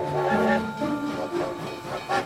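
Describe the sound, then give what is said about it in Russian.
A train from Riga in the late-19th-century Russian Empire pulls away, giving a steady rolling rumble with hissing and sustained tonal squeals that swell and fade in a few slow surges. “Поезд из Риги трогается и медленно набирает ход.”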